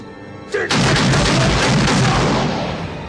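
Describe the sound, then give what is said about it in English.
A gunshot goes off during a phone call in the comedy film The Naked Gun: one heavy, loud blast, then a broad roaring wash that slowly fades. “I'm sorry, I can't hear you. Don't fire the gun while you're talking.”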